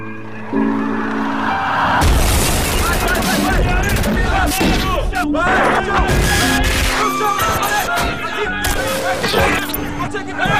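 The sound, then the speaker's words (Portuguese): Gunfire and explosions from a dubbed war film scene set in Iraq in 1991: dense, rapid bursts of shots and crashes that continue throughout, with voices shouting over the barrage. “Entendido! Dispara nesse aí! Iraque, 1991. Ótimo! Atira nele!”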